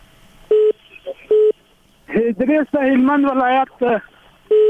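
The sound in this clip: Telephone line tones after a call drops, a few short, steady beeps at intervals, with a voice talking between them.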